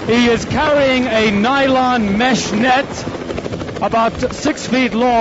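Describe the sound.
A Swiss air rescue helicopter hovers during a mountain rescue on the Eiger Glacier in the Bernese Alps. Its steady rotor drone runs beneath a man speaking almost continuously.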